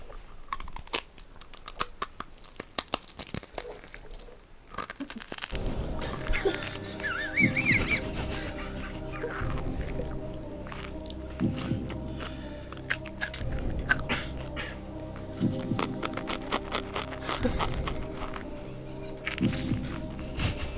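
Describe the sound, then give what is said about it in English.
Crisp crunches and chewing come from bites of crinkle-cut cheddar chips. Many crackly, irregular bites continue throughout, joined partway through by a steady background tone. “so here's General Cheddar's Scorched Earth Strategy. I just know some people appreciate this. I appreciate the crinkles. Well, I need to take a little bite first, just to make sure that I need to cleanse my palate.”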